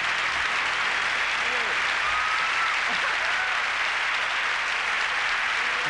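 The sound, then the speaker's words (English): A studio audience applauds in a long, dense, steady burst of clapping that keeps an even loudness throughout, with faint voices heard beneath it. “In the applause breaks in the 90s were much bigger than they are now, I believe. They clap anything.”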